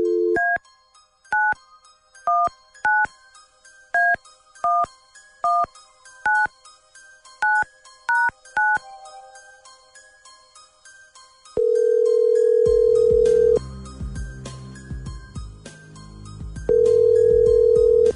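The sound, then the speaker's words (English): Telephone keypad tones as a number is dialed: a quick, uneven string of short, bright beeps, then two long, steady ringback tones separated by a pause, with a low rumbling hum under the ringing. “All right, here we go. Dialing at random.”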